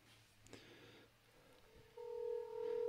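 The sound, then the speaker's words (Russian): A telephone call being placed: faint clicks and hum at first, then a steady two-pitch tone that holds to the end, quiet overall. “Позвоним Мендору сразу. Так. Или пилоту. Да, Мендору? Кому? Так, Мендору звоним.”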